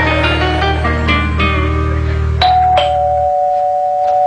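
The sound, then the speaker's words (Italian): A doorbell rings in a long electronic chime, several bright tones struck one after another over a steady low hum, ending in a sustained ringing note. “Il campanello più lungo della storia del TV.”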